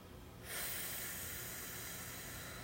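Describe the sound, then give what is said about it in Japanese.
Slow exhalation of breath during a guided relaxation breathing exercise: a steady, soft breathy hiss that begins after a brief quiet moment and holds evenly for about two seconds, with no voices. “はい、じゃあゆっくり息を吐いていきます”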